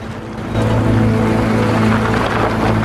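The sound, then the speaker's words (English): Army vehicles trundling down a street, a loud, steady low engine rumble under a broad noisy wash that holds throughout. “The army vehicles trundle on down the street.”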